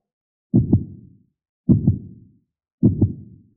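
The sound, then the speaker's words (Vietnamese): A heartbeat thumps three times, each a muffled low double beat, evenly spaced at a steady pace with silence between them. “Chẳng biết tại sao, trái tim của hắn đột nhiên trở nên mất kiểm soát, đập liên hồi, hơn nữa có khuynh hướng đập càng lúc càng nhanh.”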